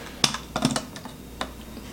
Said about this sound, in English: And this one's going to be a little bit different, difficult because it's a pull tab, so you're really not supposed to cut it with a can opener.